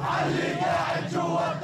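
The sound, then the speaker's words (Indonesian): A crowd in the streets of Ramallah chants slogans, many voices raised together in a loud, sustained, rhythmic shout. “Kerumunan massa di Ramallah ini menuntut aksi balasan untuk pembunuhan Aruri, meneriakkan slogan-slogan dan meminta kepada Syed Hasan Nasrallah, Sekjen Hizbullah di Lebanon, untuk mengambil tindakan.”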